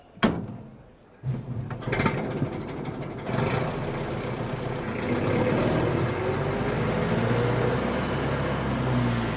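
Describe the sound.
A car engine idles with its exhaust smoking while parked at a city square, a quiet, steady low rumble with a broad hiss. A few sharp knocks come early, and the rumble deepens and settles in the later seconds.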